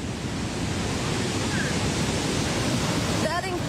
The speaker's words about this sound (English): Sound you can hear, that thunderous sound, is the sound of the Victoria Falls here on the border of Zambia and Zimbabwe in southern Africa.